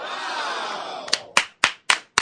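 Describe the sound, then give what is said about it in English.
Five sharp hand claps from people in an office, each a short loud crack at an even rhythm, following a longer sustained tonal sound. “So we'll clap in the office then. How about this?”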